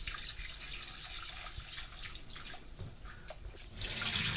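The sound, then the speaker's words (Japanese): Rice being gently rinsed and washed by hand in water, ready for seasoned mixed rice; a steady, soft sloshing and trickling of water that swells slightly near the end, with no voices. “そしたら 2,3 回お米を優しく洗うように研いでいきます。”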